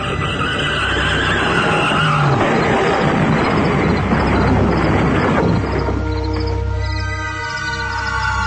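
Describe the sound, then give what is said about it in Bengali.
Car braking hard and swerving to the roadside, a loud sustained roar of tires and engine that turns into high squealing, whining tones as the vehicle stops. “প্রাণপণ শক্তি দিয়ে গাড়িটা আওয়াজ তুলে রাস্তার একেবারে কিনারায় চলে এলো, তারপর বিকট আওয়াজ তুলে ব্রেক কষে দাঁড়ালো গাড়িটা।”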